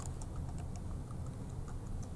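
Faint typing on a computer keyboard while logging in: a string of soft, light clicks at an uneven pace over a steady low hum, with no voices.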